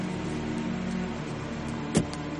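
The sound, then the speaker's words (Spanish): A limousine door is opened as someone climbs in, marked by a single sharp click near the end over the car's steady low hum. “Un empleado le abre la puerta de una limusina y sube.”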